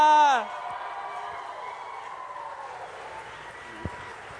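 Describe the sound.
Audience applause and cheering welcome a speaker to the stage, rising right after a brief shouted voice and then holding as a steady, dense wash of clapping for several seconds.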